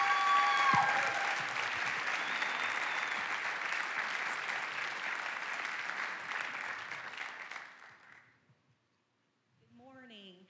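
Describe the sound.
A church audience applauds a guest speaker with dense, sustained clapping that slowly tapers off and stops, followed by a brief silence before a voice begins speaking.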